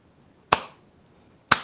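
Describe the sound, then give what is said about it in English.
Sharp slaps against the body, two loud smacks about a second apart, each a brief crack that trails off quickly, with no voices. “In Jesus' name, we are going to slap it again. Let's go 3 times.”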